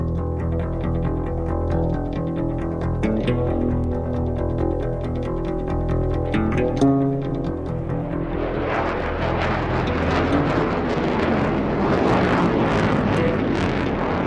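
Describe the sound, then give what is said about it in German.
Loud, broad engine roar of a fighter jet performing aerobatic climbs, loops and dives swells in after about eight seconds and stays heavy to the end, following a passage of layered, droning tones. “Ein Kampfjet, der steil nach oben steigt, sich überschlägt, kopfüber fliegt, sich dreht, hinabstürzt, in eine Kurve geht. Fast wie Eiskunstlauf, aber kriegerisch, laut und gewaltig.”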